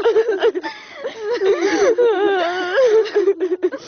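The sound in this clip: A woman crying, her sobs wavering in drawn-out, quavering wails whose pitch rises and falls, broken up by short, catching gasps, loud throughout.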